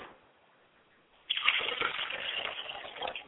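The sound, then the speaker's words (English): Water poured into a glass as a libation gushes and splashes steadily for about two seconds after a quiet opening. The stream stays fairly soft, with no voices over it. “As I pour the libation, I pour a glass of water for my Father's spirit”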